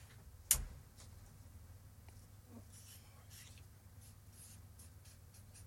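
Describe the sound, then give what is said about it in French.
Pen writing on a notepad: faint, soft scratchy strokes come in short, irregular bursts, with one sharper knock near the start, over a low steady background hum. “Là, il est en train d'écrire sur son carnet.”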